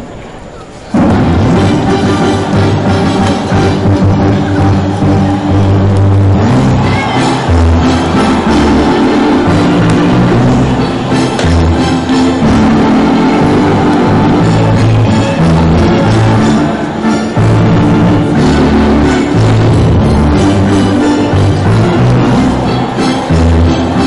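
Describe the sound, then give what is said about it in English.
A stadium crowd sings the old ballpark classic Take Me Out to the Ballgame together, a dense, loud mass of voices that holds steady for the whole stretch after a brief quieter start. “sing along with the fans here at the Dean. Take me out to the ballgame. Please stand up and stretch those legs and join us in this rendition of the old ballpark classic, Take Me Out to the Ballgame.”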